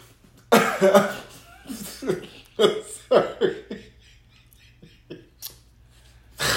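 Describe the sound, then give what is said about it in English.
Snorting laughter: a handful of sharp nasal bursts, with several strong ones early on and softer ones later. A final burst comes at the very end, all set against a faint low hum. “Did you just snort? I did snort.”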